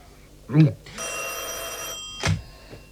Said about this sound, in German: Ich kenne Ihr Klingeln. Kein Mensch in Moskau lässt das Telefon so überzeugend klingeln wie Sie.